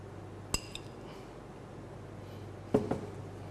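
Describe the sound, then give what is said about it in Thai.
A spoon clinking against a dish as ground black pepper is added while cooking: a few light metallic taps in two small clusters over a steady low hum. “ต่อไปครับเราจะใส่พริกไทยป่นนะครับ1ช้อนนะครับ”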